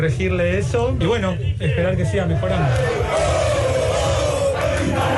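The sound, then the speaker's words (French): A crowd gives a loud ovation to Maradona's doctor as he leaves the operating theatre after the footballer's brain clot surgery. Many voices shout, cheer and chant continuously without a break. “Écoutez l'ovation reçue par son médecin à la sortie du bloc.”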